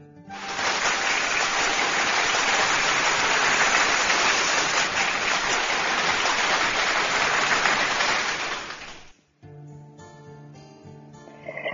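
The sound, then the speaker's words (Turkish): Sustained applause for a poet after a poem, a dense, even hiss of many hands that holds for about nine seconds and then cuts off abruptly, followed by soft music. “Buradan kocaman bir alkış yüreğine, gönlüne, kalemine sağlık Ayşen hocam.”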